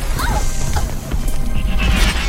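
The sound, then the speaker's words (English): Doors shatter as someone punches through them in an action scene, a dense, loud burst of crashing and smashing noise that carries on without pause across the whole moment. “Now the doors to Lady Silk's quarters shatter as Thaddeus punches through them.”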